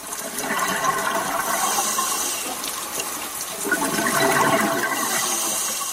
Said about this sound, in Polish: Tomek wczoraj obiecał, że będą bąbelki i bąbelki, zdaje się, są dziś.